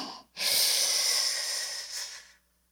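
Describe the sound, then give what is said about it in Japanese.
A single slow, drawn-out inhale in a breathing exercise, a soft airy hiss lasting about two seconds after a brief pause, easing off into silence. “5秒吸って”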